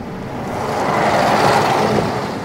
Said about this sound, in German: früh am Morgen ist auf den Straßen schon sehr viel los. Da fahren Autos, Motorräder, Busse,